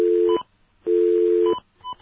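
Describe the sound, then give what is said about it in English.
A telephone dial tone sounds in steady, even bursts, two long tones split by a short silence and a third just beginning, with brief higher beeps near the end of each burst and no talking. “you notice the dial tone doesn't pulse anymore? That's weird.”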